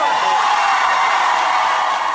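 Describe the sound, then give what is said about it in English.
Loud crowd cheering from striking West Virginia teachers as the state Senate gives final approval to their pay deal after a nine-day strike; a dense, continuous roar of many voices runs unbroken throughout. “Cheering as the state Senate gave final approval yesterday to a new deal and chanting, "We made history! We made history! We made history."”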